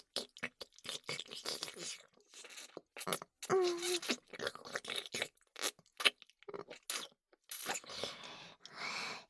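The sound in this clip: Chewing of juicy food in the mouth, heard as many quiet, irregular wet crunches and squelching bursts separated by short gaps.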